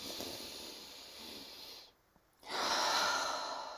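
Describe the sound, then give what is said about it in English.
A deep breath is taken together in a guided breathing exercise: a long, airy inhale, a brief near-silent pause, then a louder, fuller exhale that slowly tapers off. “I want you guys to take a deep breath with me, okay?”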